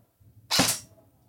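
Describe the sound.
A single sharp gunshot from a scoped gun at a shooting session cracks out loud and bright, then tails off quickly, with no other shots and no talk around it.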